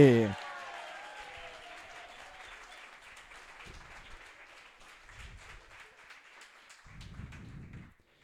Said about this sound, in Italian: un bel applauso per Luca Bernardini!